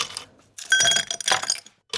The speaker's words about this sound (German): Mit ein paar Eiswürfeln. Die da in ein Glas reingetan werden.